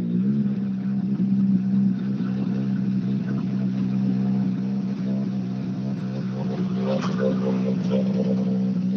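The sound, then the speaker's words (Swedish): A rally car's engine drones as the car arrives at the stage. The mid-pitched rumble is loud and continuous throughout, with a slight surge in revs toward the end. “nästa bil in, Gus Greensmith.”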